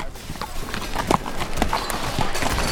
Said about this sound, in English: They trotted up to the tie rail outside and looped reins over the crossbar.